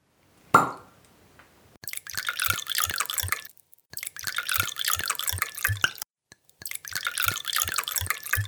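A bottle of natural wine is uncorked with one sharp pop, then poured in three long, splashing streams with short pauses between them.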